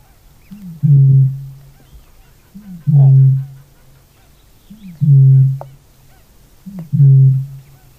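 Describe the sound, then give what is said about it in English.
Deep booming calls of an Australasian bittern, a rare New Zealand bird: four low, resonant booms spaced evenly about two seconds apart, each a loud hollow pulse over quiet background. “There are birds that are more often heard than seen. This is the call of one such rare New Zealand bird, Mataku Hurepo, the Australasian bittern.”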